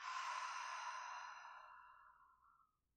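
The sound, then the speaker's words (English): A single slow breath out, as in a calming exercise of breathing in through the nose and out through the mouth: a soft, airy exhale that starts full and fades gradually over about three seconds, heard alone. “you breathe in through the nose, and then you breathe out through the mouth.”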